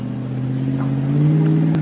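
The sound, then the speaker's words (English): An SUV races along a 30-foot steel border fence, its engine a steady, loud, low drone with strong harmonics that swells slightly midway, with no voices. “a smuggler's SUV raced along the border fence and dropped another group at the same spot”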